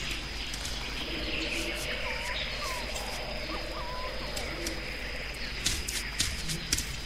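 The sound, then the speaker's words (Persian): Birds chirping in a video game: scattered short chirps and hoot-like notes drift over a steady high insect-like drone, with a few sharp clicks near the end. “بعد دقت کنید صدای پرنده ها رو اینجا و اونجا فرق کرده اگه دقت کرده باشید”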